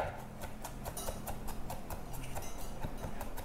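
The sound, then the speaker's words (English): Quiet, rapid knife chops on a cutting board as peeled, smashed garlic cloves are roughly minced, many light, crisp taps falling in a quick, fairly regular rhythm with no talk over them. “Give it a smash. Peel the skin. Then I'm just gonna give this a really rough mince.”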